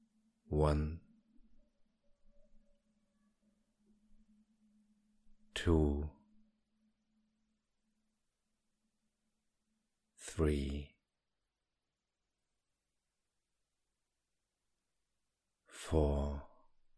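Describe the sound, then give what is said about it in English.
Four slow, deep breaths, each a soft, airy sighing exhale, spaced about five seconds apart, with a faint low hum lingering between the first two. “and deep as your body continues to relax with the next 5 breaths.”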